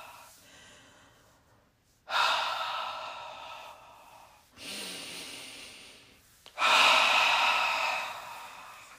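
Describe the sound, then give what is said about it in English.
Deep belly breathing sounds as three strong breaths, each a loud, airy rush that slowly fades, after a softer breath at the start; no one speaks. “Take a couple deep belly breaths.”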